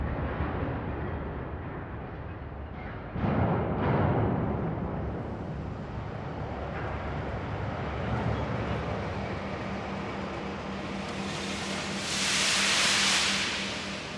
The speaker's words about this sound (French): tu avais l'image, la vision de bâtiments délabrés, de voies de chemin de fer ne menant plus nulle part, et le son des wagons qui s'entrechoquaient.